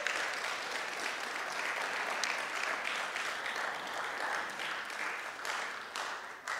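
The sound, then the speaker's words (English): A church audience applauds its pastoral team: an even, moderately quiet wash of many hands clapping that holds steady and cuts off at the end. “Would you thank our pastoral team?”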